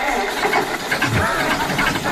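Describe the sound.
A diesel tractor engine runs with a steady, rough, knocking rumble throughout, holding an even loudness with no clear start or stop.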